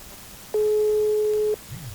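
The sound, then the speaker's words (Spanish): A telephone line tone sounds while a listener's number is dialed: one steady, clear beep lasting about a second, set against low background noise. “Bájale a tu radio, ahí va el segundo intento. ¡Tí! Ahí estamos, marcando.”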